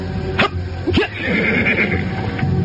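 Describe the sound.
A horse whinnies where riders are setting off on a long horseback journey. Two short, sharp bursts are followed by a wavering, fairly loud neigh that carries on to the end, with no talk.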